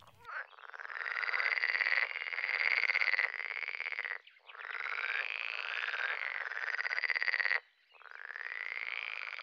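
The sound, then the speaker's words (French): A frog croaks in three long, loud buzzing trills, each running for several seconds with brief pauses between them. “la grenouille,”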